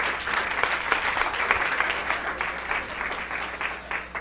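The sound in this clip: Church audience applauding to welcome a guest speaker, a loud, continuous roar of many hands clapping that holds steady and eases off slightly at the very end.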